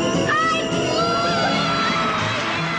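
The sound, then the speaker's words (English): A theater audience oohs and aahs together, a loud, continuous wash of many voices whose exclamations swell and overlap without a break. “And up they go over the theater. You can hear the oohs and ahs of the audience there”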